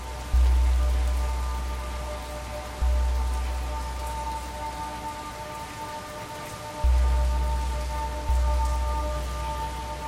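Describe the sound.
Steady rain falls on a city street at night, a dense, even hiss that continues without a break, with a low rumble that swells and fades a few times underneath.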